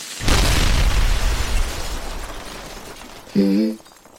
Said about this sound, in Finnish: Noin. Saatiin räjäytystyöt oikein kunnolla taas vauhtiin täällä työmaalla. Jee! Yeah. Täällä me ollaan taas dynamiitit tanassa.